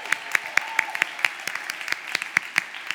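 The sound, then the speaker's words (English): Audience applause for the sound team at a church conference: sharp, crisp claps in a fairly regular rhythm that carries on steadily for the whole stretch. “Sound team at the back. They go unnoticed quite often. Why don't we give it up for them?”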